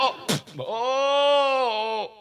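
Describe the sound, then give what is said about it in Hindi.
A man imitates a goat's bleat while crying out in pain: after a brief sharp burst comes one long, loud, wavering nasal wail that holds steady for over a second before tailing off. “अबे मगर तू ये बकरे की तरह क्यों चिल्ला रहा है भाई”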